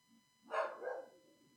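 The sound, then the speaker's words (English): A female dog gives a single short, faint bark in the background, a soft yelp fading quickly over a low steady hum. “My dog's very passionate about this issue, too, and you can hear her contributing in the background about how bad this was.”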